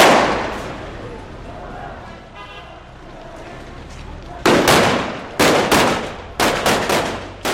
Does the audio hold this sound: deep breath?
no